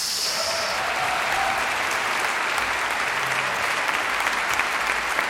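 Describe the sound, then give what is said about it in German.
Concert audience applause for a harpist, a dense, steady wash of clapping at full, even loudness from start to finish. “noch ein Applaus bitte an der Harfe Esther Peresterakis.”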